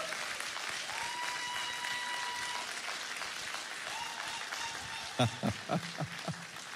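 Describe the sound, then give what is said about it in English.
Crowd applause congratulates an engaged couple, a steady wash of clapping that carries on throughout, with a few short louder bursts near the end. “would you just put your hands together? Congratulate them on their engagement to be married.”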